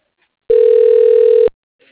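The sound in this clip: A telephone line connects through to voicemail with one steady, mid-pitched electronic tone lasting about a second. The tone starts and stops cleanly and sounds alone.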